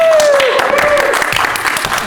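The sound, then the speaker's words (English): An audience at a live fan convention applauds, a loud dense patter of many clapping hands that holds and then slowly tapers, with a voice heard over the start. “let's all clap.”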